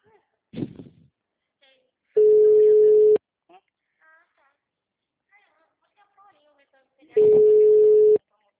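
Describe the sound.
A phone line rings out on a call that goes unanswered, giving two long, steady, mid-pitched tones about five seconds apart. Faint voices and scattered small sounds fill the gaps between the tones.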